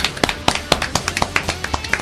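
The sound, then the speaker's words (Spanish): Applause after a round of jokes: scattered, sharp claps from a few people, arriving as many irregular, separate hits rather than a continuous wash. “¡Un aplauso para los chistes!”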